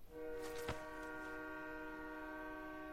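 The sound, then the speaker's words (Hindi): A train horn sounds continuously on the railway tracks, with one sharp clank near the start. “अरे train आ रही है, अरे हटाओ हमें इस पटरी से”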